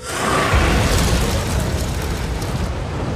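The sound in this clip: A dragon blasts fire in a loud, continuous roaring whoosh, a dense rushing rumble that holds steady for about three seconds without a break.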